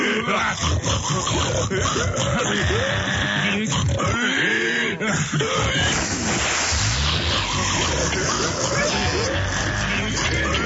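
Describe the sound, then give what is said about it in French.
A large group of pigs grunting and snorting in a rough, overlapping chorus that stays loud throughout, with raised voices mixed in among the animals. “Des cochons, des tas de cochons!”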